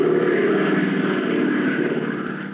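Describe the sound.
An airplane circling above a dark, unlit airfield at night gives a loud, steady engine drone with a continuous full-bodied roar that holds even throughout and eases only slightly at the end.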